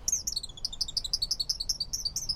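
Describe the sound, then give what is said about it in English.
Male song sparrows sing from a woody thicket along a river bank, a rapid, steady series of bright, high chirping notes repeating many times. The birds are heard alone, without voices. “From a woody thicket along the bank, male song sparrows belt out their chorus all day long.”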